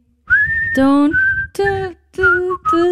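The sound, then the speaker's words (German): A person whistles a cheerful tune in several short, bright phrases separated by brief gaps, clear and fairly loud with no talking. “Oh, warte, kann man pfeifen, oder?”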